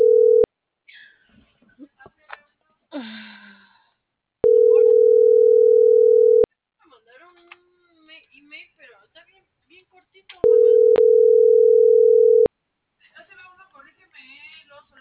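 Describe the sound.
A phone call rings out unanswered before going to voicemail: a steady, mid-pitched ringback tone sounds in long pulses of about two seconds with roughly four-second gaps, faint voices murmuring in the pauses.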